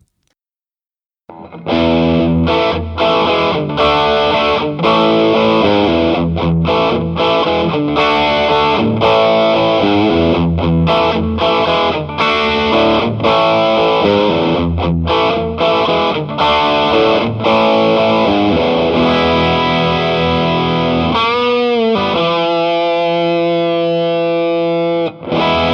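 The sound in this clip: Distorted electric guitar with the gain cranked up, playing a loud, continuous rhythmic run of chugging chords and riffs, ending on a sustained, ringing chord, with no voices.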